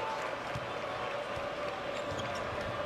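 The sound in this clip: Basketball dribbled on the court during a Maryland–Wisconsin college game: soft, regular bouncing thumps under a steady murmur of arena crowd noise.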